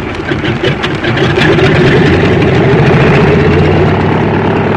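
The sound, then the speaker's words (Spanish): Small airplane engine accelerating down a runway for takeoff: a steady, low droning roar that swells louder after the first second and then holds at a constant, rumbling level, with no voices. “el pequeño aparato se deslizó velozmente por la pista y en unos segundos alzó el vuelo.”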